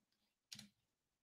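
The Enter key pressed once on a computer keyboard, a single short, crisp click standing alone in near silence, faint overall.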